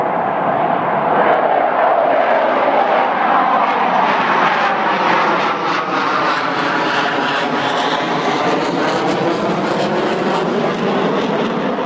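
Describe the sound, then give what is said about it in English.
A loud jet roar from an EA-18 Growler military plane flying out of a naval air station, heard overhead as a dense, continuous rushing roar with sweeping tonal bands, steady and powerful for the whole stretch without any voices. “That is the sound of an EA-18 Growler. It's a plane that flies out of the Whidbey Island Naval Air Station.”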